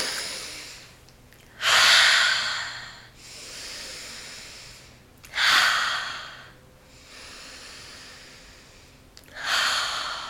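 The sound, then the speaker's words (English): Three deep breaths taken during a group relaxation exercise, each a loud, airy breath spaced roughly four seconds apart, with a softer breathy hiss in between and no talking. “Three deep breaths.”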